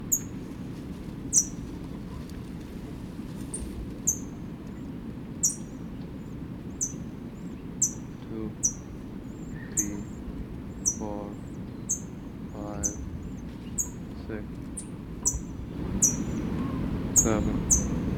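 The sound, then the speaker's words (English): A chick in a nest calls faintly, with a few soft call notes among regular, repeated high chirps, while a person talks quietly throughout. “faint response from chick in nest.”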